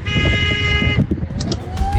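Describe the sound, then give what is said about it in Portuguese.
A vehicle horn honks on a highway in one loud, steady, brassy blast lasting about a second. It cuts off into the rumble and whoosh of passing traffic, with a few brief higher tones after it. “Aquela buzinada gostosa, vai.”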